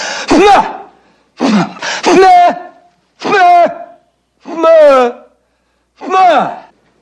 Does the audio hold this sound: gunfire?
no